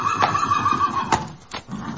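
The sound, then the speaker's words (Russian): Horses neigh as they come to a stop at a post station: one drawn-out, high whinny, followed by a few sharp hoof knocks. “Лошади стали у почтового домика.”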